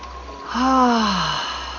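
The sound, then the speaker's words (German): A single deep breath during a relaxation exercise, drawn in through the nose and let out through the mouth as a voiced sigh whose tone slides steadily downward in pitch and fades. “dass Sie tief durch die Nase einatmen und durch den Mund ausatmen, so wie hier.”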